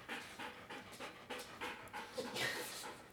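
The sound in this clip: An anxious dog pants in a rapid, steady run of breathy huffs, faint and alone throughout.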